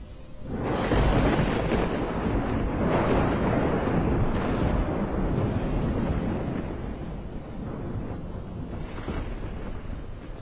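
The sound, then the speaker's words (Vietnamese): Thunder cracks into a storm of heavy rain and gusting wind, with a sudden loud onset that swells into a long, deep, rolling rumble over steady downpour before easing slightly toward the end. “Tiếng sét làm cho tôi giật mình tỉnh giấc. Ngoài trời cũng đang mưa, sấm chớp giật đùng đùng.”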